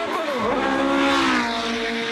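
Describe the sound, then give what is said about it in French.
A race car's V8 engine revs loudly in a continuous howling wail, its pitch climbing over the first half-second and then holding at a high, steady note. “est-ce que vous l'avez entendu un peu miauler le V8 hein?”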